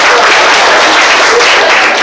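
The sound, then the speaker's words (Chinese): Applause at an association meeting as new representatives are introduced: dense, loud, unbroken clapping from a crowd that holds steady throughout. “那我们也给他鼓掌。”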